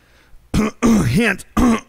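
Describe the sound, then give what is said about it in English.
A person clears their throat in three harsh, loud voiced bursts separated by short pauses, the middle one longest with a wavering, dipping pitch. “Excuse me. Something weird crawling out of my throat there.”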